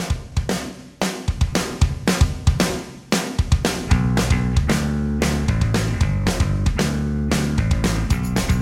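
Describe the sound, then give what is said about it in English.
A loud pop-punk song plays in a music guessing game, with pounding drum hits and distorted guitars that settle into a dense, driving full-band wall of sound for the second half. “I'm going to play a song for 20 seconds.”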